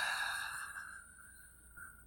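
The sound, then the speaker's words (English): A deep breath let out during a guided meditation breathing exercise: a soft, airy hiss that slowly fades away. The breath is quiet and heard alone, with no talk. “So let's take a deep breath together. Let's inhale and exhale.”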